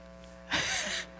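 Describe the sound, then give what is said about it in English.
A man takes one sharp, breathy gasp for air after holding his breath for over three minutes in a breath-holding contest. It is a half-second rush of hissing breath over a faint steady hum. “And he's gasping for breath.”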